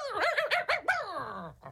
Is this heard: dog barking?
yes